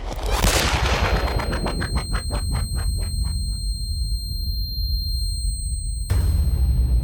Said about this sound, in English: The teenage girl looked genuinely sorry she had shot me.